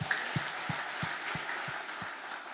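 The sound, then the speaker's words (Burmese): A church audience claps hands in unison to praise Jesus during a sermon: about seven faint, evenly spaced low claps in a steady beat over a hushed background hiss. “ထိုယေရှုနာမနဲ့တစ်ခေါက်လက်ခုပ်တချီးမွမ်းရအောင်”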